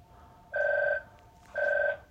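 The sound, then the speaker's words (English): A mobile phone rings in the background, two short electronic ring bursts of even length separated by a brief gap, fairly faint and steady in pitch. “that's my phone in the background. Awesome. Completely ruining the recording.”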